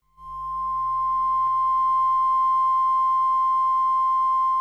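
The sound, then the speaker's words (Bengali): A radio transmitter's test tone sounds as a single pure, unwavering pitch. It comes in almost at once and holds steady and loud to the end, with a faint low hum beneath. “এই তো tone পাচ্ছি, এইবার বাজবে signature tune.”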